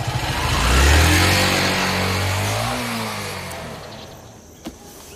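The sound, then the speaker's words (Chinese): A motorcycle engine revs loud at first, rising in pitch, then trails off and fades over several seconds, with a brief click near the end. “你说魏宝库家有的是车，这小子还骑台摩托呢。”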